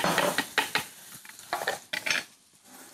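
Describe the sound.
Onion and tomato paste frying in a pan, with a soft sizzle under quick, irregular stirring and scraping strokes, fairly faint throughout.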